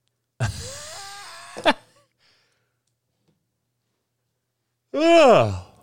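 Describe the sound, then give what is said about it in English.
A voiced yawn with a groaning, wavering tone. After a long silence comes a second short, moaning vocal exhale. “Sorry about the yawn.”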